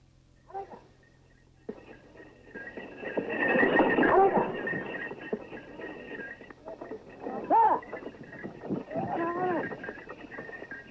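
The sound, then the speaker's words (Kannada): A bullock cart is driven along, with irregular clopping and rattling that rise and fall beneath people talking. “ಹಾಂ, ಗಾಡಿ ನಿಧಾನ ಓಡಿಸಪ್ಪ.”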